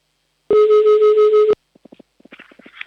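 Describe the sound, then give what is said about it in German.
A telephone line gives a single loud, steady ring tone about a second long while a number is called. A few short, faint clicks follow it. “da wählen wir mal gleich mal die Nummer und hoffen, dass jemand abhebt.”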